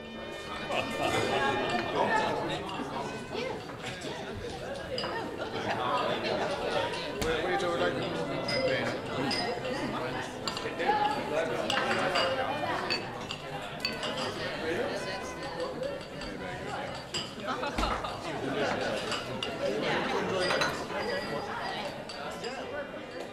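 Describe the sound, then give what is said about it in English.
Ambient background noise of many overlapping distant conversations, with occasional clinks and knocks. The murmur is steady and moderately loud for the whole stretch. “The distant conversations, music, and ambient noise paint an auditory picture of Laura's art, a still life in motion.”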